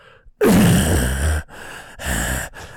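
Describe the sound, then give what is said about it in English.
A voice imitating heavy breathing into an intercom microphone: one long, loud, rasping breath followed by a few shorter breaths. “just starts fucking breathing heavy into the goddamn microphone”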